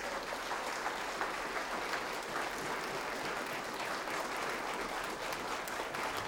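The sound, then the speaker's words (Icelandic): Audience applause greeting the leader of a Reykjavík big band at a concert: dense, steady clapping from many hands that holds at an even level throughout, with no voices over it. “En ég ætla að kynna fyrir ykkur þá til leiks stjórnandasveitarinnar Sæbjörn Jónsson og ég gefa honum gott klapp.”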